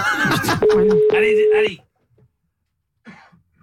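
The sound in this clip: A telephone ring tone sounds during a call to a hotel. A single steady, low-pitched tone lasts about a second under a speaking voice, then cuts off, followed by near silence and a faint murmur.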